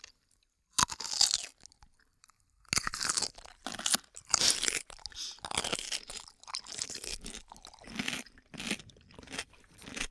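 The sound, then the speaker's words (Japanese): Crunchy bites and chewing of a rice-bran pickled cucumber, with many sharp, irregular crunches in uneven bursts and short pauses between mouthfuls. No one speaks. “おいしい。ぬかきゅうり好きなんだよね。”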